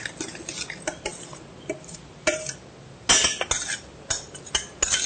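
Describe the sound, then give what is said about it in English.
A spoon stirs chutney after lemon has been added, making many light clinks and scrapes against the bowl in an uneven rhythm. The clatter is fairly faint and no one talks. “Lemon also we'll add in. And I'm going to stir it up.”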